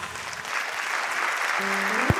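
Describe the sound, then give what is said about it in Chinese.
Audience applause rolls on as an even, continuous wash of clapping at a moderate level. “感谢大家热烈的掌声，谢谢大家。”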